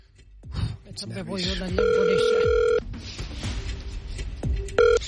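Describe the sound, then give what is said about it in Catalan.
Telephone ringing tone while a call is being placed, a steady electronic tone lasting about a second and then a shorter one, with people talking around it. “Deixa'm trucar primer la Gemma, que fa 50 anys.”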